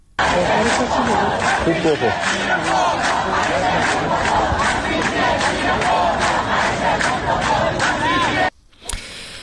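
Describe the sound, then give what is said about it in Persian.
Loud rhythmic chanting of protest slogans by a crowd of Islamic Azad University students at the Barajin unit in Qazvin during Sunday protests, steady repeated beats with overlapping voices, cutting off abruptly near the end. “در قزوین هم دانشجویان دانشگاه آزاد در واحد باراجین روز یکشنبه با سر دادن شعار به اعتراضات خودشون ادامه دادند.”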